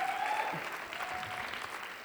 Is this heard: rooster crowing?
no